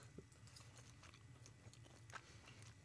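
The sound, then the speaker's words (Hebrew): Chewing on grilled flank steak cooked medium-well: quiet, moist bites and mastication with a few crisper crunches repeating steadily, with no talking. “לא נעים לי לאכול לתוך המיקרופון”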